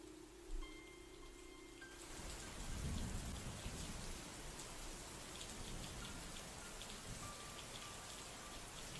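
Heavy rain pouring down at night as a thunderstorm rolls through. The dense, steady hiss swells in after a quieter start, with a low rumble of thunder early on, and then holds constant to the end.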